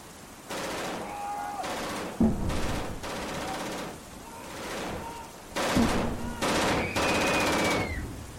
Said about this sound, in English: Those aren't creatures. They're shooting at innocent people. I think they're just shooting at anything that moves.